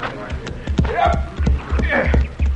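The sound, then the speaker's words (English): Horses' hooves clatter and thud as riders dismount after a day's ride, many uneven knocks and shuffling steps on the ground, with men's voices over them. “All right, boys, get down off your horses.”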